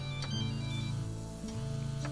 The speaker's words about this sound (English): Buzzing is not me. Todd's picture appears on Bob's cell phone display.